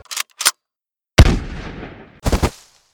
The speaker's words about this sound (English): When it became clear that there was no reasoning to be done, he fired his rifle.